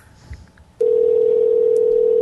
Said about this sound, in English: So his phone was ringing somewhere. Maybe it's in his Audi, so he's not picking up.